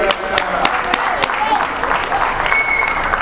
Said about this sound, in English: Let's give it up for Tony.